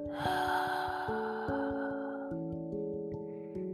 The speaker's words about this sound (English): Let us close our eyes and take a deep breath in and a deep breath out.